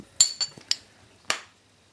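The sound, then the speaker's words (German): Glass clinks as a bottle is closed and drinks are passed around: a few sharp, bright taps spaced unevenly, followed by quiet. “So, die Flasche ist wieder zu, ihr habt alle was zu trinken, habt alles weitergereicht.”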